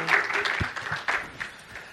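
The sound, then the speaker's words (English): A crowd at the 2019 LCMS Youth Gathering applauds to welcome a reverend speaker, with moderately loud, uneven clapping and voices calling out through it. “Please welcome him with a warm hand.”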